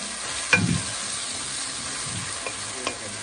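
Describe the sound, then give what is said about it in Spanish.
Garlic and meat frying together in a pan as they are stirred, giving a continuous soft sizzling hiss broken by a few scraping strokes of the utensil. “El ajo ya está ligado con la carne. Llevaba 15 minutos. Aproximadamente. Bate que bate.”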